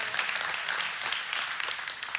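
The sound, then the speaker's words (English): An audience applauds during a talk, a dense, bright burst of many hands clapping that stays steady and fairly loud for about two seconds. “It's funny to me how we kind of clap for that and then we go do it.”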